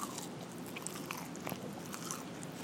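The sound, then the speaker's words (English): Biting and chewing a chicken tender sub with honey mustard and lettuce on wheat bread: soft, wet crunches and many small clicking, munching sounds in a quiet steady stream, with no talking. “juicy chicken tender sub with some honey mustard and lettuce on some wheat bread. Yeah, yeah. Doing some ASMR for you.”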